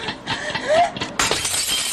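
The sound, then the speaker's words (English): A drinking glass of water knocked from a hospital nightstand to the floor shatters late at night: a sudden loud crash of breaking glass with a bright, sustained scatter of shards, following a softer stretch of steady sound. “and knocks the glass to the floor.”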